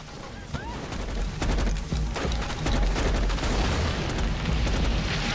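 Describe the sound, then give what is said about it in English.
Gunfire and fiery explosions erupt during a SEAL force's jungle ambush, with rapid volleys of shots over heavy low booms in a continuous, loud barrage. “Waters, Lake, and several others then get to their feet and do the same, as fiery explosions light up the jungle around a petrified Kendricks, who's cowering with her hands over her ears.”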